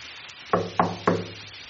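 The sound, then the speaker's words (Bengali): Three evenly spaced knocks on a door, each a sharp, solid rap, heard alone against a quiet background. “দরজায় টোকা পড়ল”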